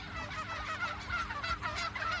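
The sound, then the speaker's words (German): Turkeys calling on a free-range farm near Gütersloh, with many overlapping gobbling and honking calls forming a continuous flock chatter. “Da geht es heute um einen Putenhof bei Gütersloh. Seid gespannt, ihr werdet nicht nur etwas über das Leben der Puten erfahren, es ist fast wie ein Sprachkurs.”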